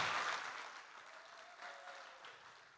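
Faint applause from a church audience, with scattered clapping that starts at its fullest and thins gradually, then lifts slightly before tapering off.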